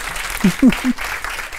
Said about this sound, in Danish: Klapp litt for Toril.